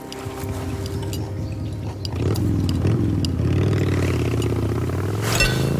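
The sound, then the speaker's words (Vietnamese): A motorbike engine runs with a low, rumbling drone and harmonic tones. It grows louder partway through, holds steady, and has a brief clatter near the end. “Đó là tiếng xe máy sao? Ừ, em nghĩ vậy.”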